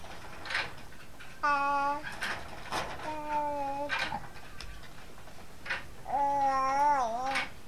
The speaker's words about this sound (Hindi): यहां एक बिल्ली और कुत्ता है